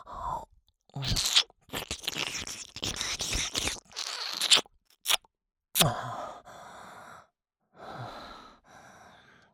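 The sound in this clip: Wet mouth sounds of licking and nibbling an ear: irregular crunchy, smacking bursts with soft breathing between them, fairly close and clear with short pauses, no talking.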